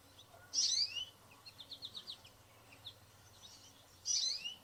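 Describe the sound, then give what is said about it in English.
Bright, high chirps and twittering phrases of an American goldfinch, the yellow-and-black bird: a burst of song, then a run of short quick notes, then another burst. The song is fairly faint over a low steady hum. “This is the American goldfinch. Very beautiful bird.”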